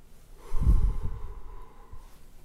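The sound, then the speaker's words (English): A deep breath is drawn in slowly and audibly through the nose, rising to a loud, airy rush, then trailing off into softer breathing. “I invite you to take a breath with me.”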